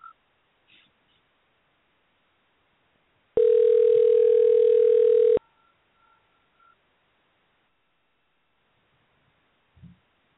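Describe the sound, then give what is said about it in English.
Ringback tone of an outgoing phone call that goes unanswered during a year-end boxing awards event: one steady, loud tone lasting about two seconds, set in near silence with a few faint clicks before and after. “Let us get him on the line here.”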